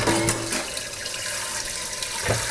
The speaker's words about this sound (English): as the pot filling up with water